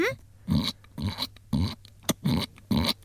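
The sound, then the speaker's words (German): A person imitates a piglet's oink with several short, squeaky, grunting vocal bursts in a quick, uneven sequence, fairly loud with brief pauses between them. “Kannst du einen Ferkel nachmachen?”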